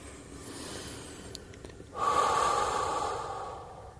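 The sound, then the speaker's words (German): Deep relaxation breathing: a soft, airy inhale is followed by a louder, longer exhale that slowly fades. “Zweimal tief durchatmen.”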